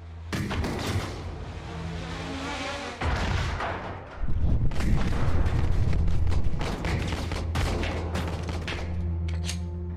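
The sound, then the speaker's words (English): Rapid gunfire comes from many directions in a police body-cam style video game. Dense, loud volleys of shots and booms overlap almost without pause, swelling heavier midway through. “You're being shot at from all different directions.”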